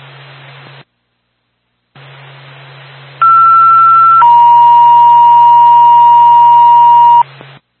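A two-tone ambulance dispatch pager alert sounds over hissing radio static: a higher steady beep lasting about a second, then a lower tone held for about three seconds, both loud and clean.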